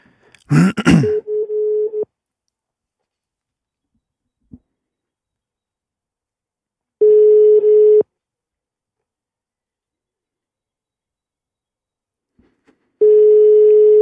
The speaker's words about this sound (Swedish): Nu testar vi att ringa.